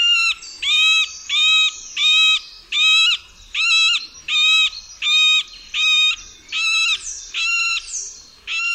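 A middle spotted woodpecker gives a long, evenly spaced series of nasal, squawking moans. The many harsh, harmonic-rich calls repeat at a slow, steady pace, each about the same length and loudness, with quiet gaps between them.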